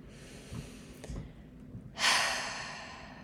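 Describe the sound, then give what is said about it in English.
A slow, deep breath taken during a guided relaxation exercise: after a quiet stretch with faint low thumps, a loud breathy rush of air starts abruptly and then fades gradually to the end. “let's take a deep breath in together.”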